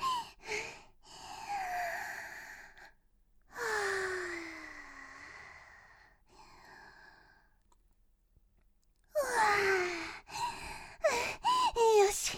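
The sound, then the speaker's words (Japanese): Deep breaths taken by a woman trying to calm herself: several loud, sighing breaths, some with a voiced, wavering tone, separated by short gaps of near silence. “あれです、こんな時はあれですわ、困った時の深呼吸。”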